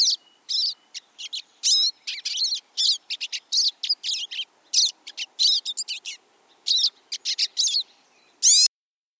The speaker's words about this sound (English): Which is a pine siskin.